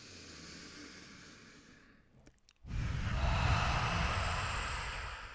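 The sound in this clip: A deep yoga breath is exhaled out through the mouth. A loud, breathy rush begins abruptly after a short near-silent pause and tapers slowly over about two and a half seconds, following softer breathing.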